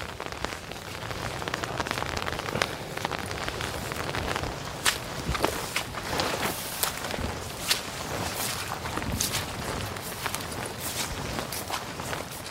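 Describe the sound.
Footsteps tramp along in old rubber boots, one of them leaking, over wet ground with a steady pattering, rain-like texture. The strides come as a continuous, even stream of soft thuds and squelches, with no talk.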